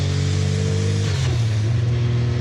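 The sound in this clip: Racing car engine of 800 horsepower on a wet, slippery, oil-covered track. The loud, steady, low drone drops noticeably in pitch about midway.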